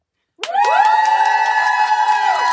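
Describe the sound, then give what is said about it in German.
A studio audience at a live stand-up comedy stage bursts into loud cheering and shrieking that starts abruptly and holds at a steady, high-pitched level to the end. “wenn es Jubelschreie gibt hier live auf Radio FM Quattro, dann heißt das, dass Leute hier sitzen im Sendestudio und bei der FM4 Stand-Up-Bühne”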